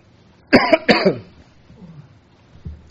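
A few harsh coughs come in two quick bursts as someone clears something stuck in the throat, followed by quiet breathing and a faint click.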